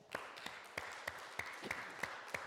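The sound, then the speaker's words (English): An audience claps hands for the Lord in rhythmic unison, with sharp, evenly spaced claps on a steady beat. The clapping is fairly faint over a soft background wash. “Come on and give the Lord a hand clap.”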